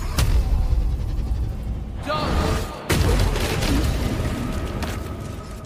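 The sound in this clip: Booming explosions from potions blowing up in a Baldur's Gate 3 co-op campaign, several loud sharp bursts with a dense rumbling wash between them.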